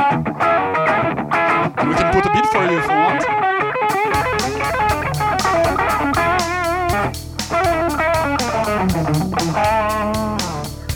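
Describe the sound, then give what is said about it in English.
Electric guitar played through a simple distortion effect, loud and sustained inside a dense band mix of driving bass, drums and piano, with a heavy low end entering partway through and carrying on to the end. “And on the top part here, we see a chain for the guitar, what he's playing here. Just a simple distortion.”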